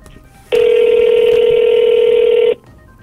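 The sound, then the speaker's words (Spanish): Telephone ringing tone as a call connects and waits for an answer: one loud, steady buzzing tone lasting about two seconds, heard alone against faint background noise. “Sí, está entrando la llamada. Ojalá nos contesten.”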